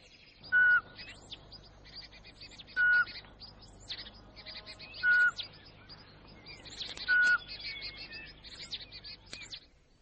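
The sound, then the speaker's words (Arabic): Birds call out in the open, four loud, clear whistled notes at regular intervals set against many thin, high chirps and twitters, with no voices. “كيف تعرف أماكن تواجد الطيور؟ أنا لا أرى ولكنني أسمع.”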